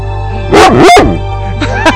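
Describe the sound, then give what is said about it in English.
A dog barks loudly twice in quick succession, then gives a couple of softer, shorter yips, all over a steady low hum. “Bark in German. That's a German bark, folks. There you go. Bark in German. See? A bark is a bark, folks.”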